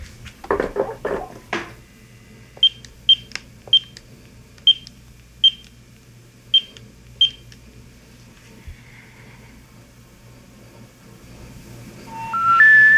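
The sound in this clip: Phone keypad beeps as a number is dialed: a brief clatter of handling, then seven short, high beeps at uneven intervals, and finally a three-note rising tone sequence at the end.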